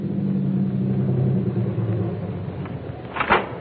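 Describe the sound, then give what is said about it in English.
Car engine left running at idle, a steady low rumble that holds evenly and eases slightly toward the end, with no talk over it. “You can keep the motor running while I'm gone.”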